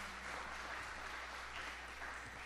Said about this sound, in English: So why don't you give a round of applause for all these people.